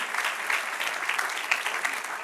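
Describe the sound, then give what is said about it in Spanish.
Steady applause from an audience at a church worship service, dense continuous clapping sustained through the whole clip at a moderate level. “Denle un aplauso al que reina.”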